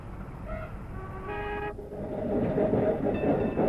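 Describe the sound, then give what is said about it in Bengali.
A tram passes along a street: two brief, tonal horn-like toots sound early over a steady low rumble, which then swells into louder rolling noise toward the end. “দেখ দাদা, ওই একটা tram গাড়ি”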